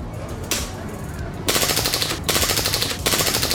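Rifle shots ring out at a carnival shooting gallery as a player tries to shoot out a star for a prize, heard as a few stretches of rapid, rattling bursts of fire against steady noise.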